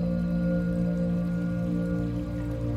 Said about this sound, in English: You close your eyes and let your senses take over. Allowing yourself to be carried away by the rhythm of the water